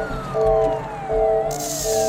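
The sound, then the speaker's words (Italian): An ambulance siren arrives with a slow wail that falls steadily in pitch over steady tones and a low engine rumble, fairly loud throughout. “L'ambulanza sta arrivando, può stabilizzarlo? Sì, credo di sì. Tranquillo”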